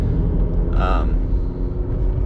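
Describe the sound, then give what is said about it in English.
Steady low road rumble from a car being driven to work, even and continuous throughout, with a brief higher tone near the start. “It is Friday, October 8th, and I am just driving to work like normal.”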